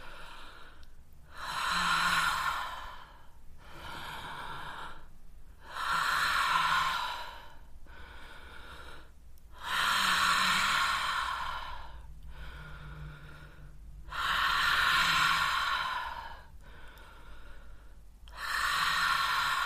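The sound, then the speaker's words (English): Slow, deep breathing in and out through the mouth, heard alone. Long airy inhales and exhales alternate, with about five louder breath phases separated by softer ones in a steady, unhurried rhythm. “Inhale through the mouth and exhale through the mouth to begin.”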